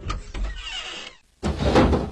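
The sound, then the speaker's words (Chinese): Door and windows of a small house being opened in a children's story, heard as two separate bursts of scraping, rattling movement with a brief pause between them, fairly loud and without voices. “跳跳蛙忙打开小房子的门窗。”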